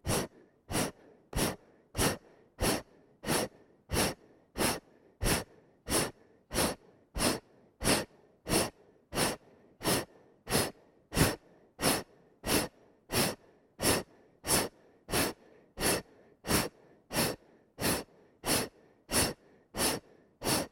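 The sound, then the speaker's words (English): Forceful exhalations during a deep belly-breathing exercise, many short breathy puffs repeated in a steady, even rhythm throughout, with no talking. “Exhale, two, three, four. Move the belly as much as you can.”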